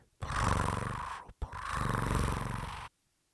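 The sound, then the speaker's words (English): A human voice imitating a cat purring: two long, low, throaty rumbles, each over a second, split by a brief pause, loud and coarse, then silence. “It started to purr. It made a purring sound like”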